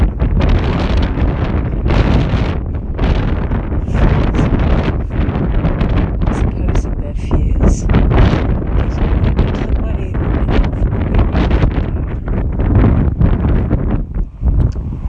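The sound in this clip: Strong wind buffeting a microphone outdoors, loud low rumbling gusts that surge and drop continuously, easing briefly near the end.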